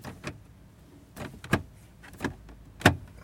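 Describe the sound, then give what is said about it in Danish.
A stuck handle rattled on a locked door, heard as several sharp, irregularly spaced clunks and clacks, fairly faint, with quiet gaps between them. “Jeg ved ikke helt, at den låst eller fanden. Jeg kan ikke lige... Det virker som om, håndtaget ikke virker. Her i døren.”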